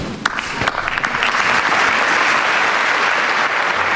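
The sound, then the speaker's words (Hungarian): Loud applause from the crowd closing Pope Francis's general audience rises quickly into a dense, sustained roar of clapping that stays full and even to the end. “Kedves hallgatóink, ezzel a tapsviharral ér véget a mai napon is Ferenc pápa általános kihallgatása.”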